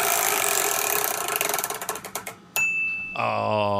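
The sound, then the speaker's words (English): A spinner wheel spins with rapid ratcheting clicks that gradually slow and spread apart as it winds down. A bright ding follows, then a sustained ringing chime. “On three. One, two, three. It's a spinner.”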